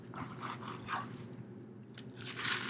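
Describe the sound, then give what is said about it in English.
Someone eats nachos, with faint crisp crunches and chewing repeating steadily and no talk. “I'm finishing my nachos without a spork”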